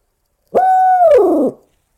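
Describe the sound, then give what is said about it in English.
A turkey hunter imitates an owl's hoot on an owl call: one loud, steady mid-pitched note that holds briefly and then slides downward as it fades, heard alone. “I can demonstrate it better on the owl call if you'd like to hear it. I'll go through the routine, sure, of my owl hooting sequence in the morning”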